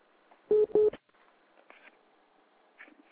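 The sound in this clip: Two telephone keypad buttons are pressed during a phone call, giving two short, loud DTMF beeps in quick succession. Quiet line noise and a few faint blips follow.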